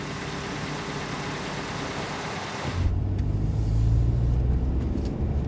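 A car engine hums low and steady as it drives toward a prison before dawn, while it is still dark. A broad hiss comes first, then the engine rumble swells and holds.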